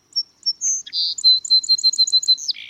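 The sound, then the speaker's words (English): A songbird sings in spring: a few separate high, bright chirps, then a rapid series of repeated sharp notes, ending in a buzzier, lower note. The notes are clear and loud, with no talk. “Before we see or feel the season, we often hear it first, in the testimony of a red-winged blackbird, the energy of a song sparrow,”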